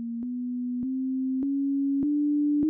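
A sequence of pure sine tones, duplicated and shifted by an octave. A steady tone steps slightly upward with a soft click at each of five changes, and a fainter, lower copy enters partway through and runs beneath it.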